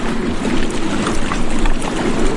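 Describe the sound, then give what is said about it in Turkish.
Fishing boats putting out to sea from harbour in Shandong, China, as a four-month summer fishing ban ends. A steady, dense wash of engine rumble and water noise continues without distinct breaks. “Binlerce balıkçı teknesi açılarak demir aldı.”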